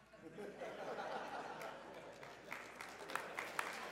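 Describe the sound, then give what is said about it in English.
An audience applauds with a faint, steady crackle of many hands clapping that lasts the whole few seconds, with a few sharper claps standing out toward the end. “Hold for applause.”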